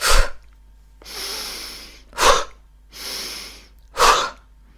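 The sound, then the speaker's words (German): Breathing exercise: deep inhales through the nose alternate with quick, forceful exhales through the mouth. Three sharp, loud puffs of breath are separated by two longer, softer breaths drawn in, with no talking. “Einatmen über die Nase, Bauch raus, mach das mal. Und dann schnell über den Mund ausatmen und den Bauch einziehen.”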